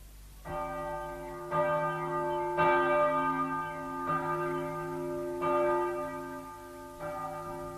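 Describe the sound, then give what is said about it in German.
Church bell of a Jesuit church in Passau ringing: six resonant strikes at a slow, slightly uneven pace, each with a long humming decay that overlaps the next. “Die Glocke hebt es an, die Leute kommen.”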